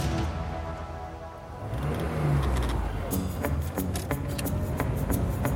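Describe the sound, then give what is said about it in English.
A convertible car driving on the outskirts of Logan, Utah, its engine a steady mid-pitched hum with wind rush that swells louder partway through, joined by light ticking and rattling. “Jim Cantrell sits at the wheel of his convertible, grinning as the wind blasts his face and beard.”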